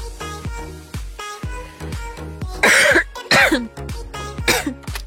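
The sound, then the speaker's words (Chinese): A few harsh coughs break out from a livestream host with a tickle in the throat, loud bursts rising over soft background music of repeated plucked notes. “怎么还咳上了呀？”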